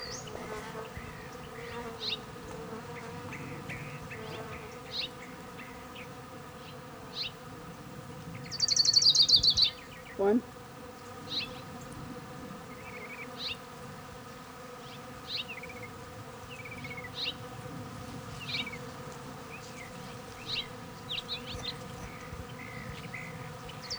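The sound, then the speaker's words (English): An orange-crowned warbler sings a single high, fast trill partway through, standing out briefly over a steady insect drone with scattered faint chirps. “Here's Orange Crown Warbler number 5.”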